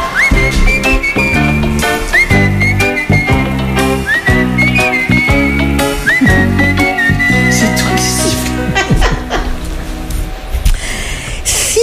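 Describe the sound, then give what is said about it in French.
Whistling from a played-back recording: a bright whistled melody with gliding, bending notes rides over a loud, continuous musical backing throughout, with no talking. “C'est pas moi qui sifflais, je faisais juste du playback.”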